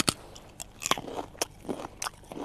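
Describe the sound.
Fresh asparagus is bitten and chewed in crisp, crunchy bursts. A few sharp crunches stand out among softer, wetter chewing sounds, all fairly quiet.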